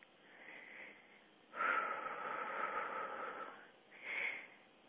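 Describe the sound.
Slow, breathy exhales of human breath: a soft breath first, then a long, louder exhale of about two seconds and a short final puff, with no talking.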